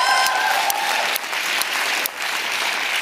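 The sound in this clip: Sustained audience applause at a talk about litigation against the executive branch, a dense, steady clapping that stays loud throughout with no voices over it.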